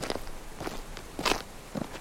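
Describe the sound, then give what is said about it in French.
Shoes crunching over pine needles and ice on a downhill slope toward an old road. A few soft, crackly footsteps at an unhurried, steady pace. “Le son de nos chaussures sur les aiguilles de pin et la glace qui nous réveille progressivement.”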